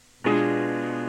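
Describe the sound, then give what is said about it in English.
Several notes sound together as a blocked chord, starting with a single clean attack and then holding as a steady, full harmony with little decay. “When the notes of a chord are played together, it's called a blocked chord.”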